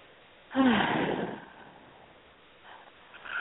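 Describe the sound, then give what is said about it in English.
A single deep, breathy breath swells sharply and fades over about a second, followed by a fainter, softer breath near the end. “Nice breath.”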